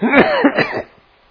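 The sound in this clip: Coughing and throat clearing from someone whose asthma is acting up after a morning run: a loud, rough burst of several hacking coughs lasting under a second, then quiet.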